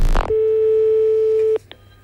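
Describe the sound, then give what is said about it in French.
Steady electronic call tone of an outgoing telephone call, a single held pitch lasting over a second after a short burst of noise, then cut off by two brief higher clicks. “je vous rappelle, chers auditeurs, que nous appelons deux personnes. Actuellement, nous sommes en train d'appeler monsieur Villadard, Jean, ainsi que monsieur Villosset Célestin”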